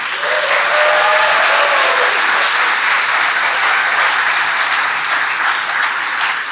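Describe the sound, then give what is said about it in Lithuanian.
Audience applause fills the space at a gathering: a loud, dense and steady patter of many hands clapping that continues without a break for more than six seconds, with no voices audible over it. “Noriu, kad pradėtumėme kaip ir kiekvieną dalį audringais aplodismentais”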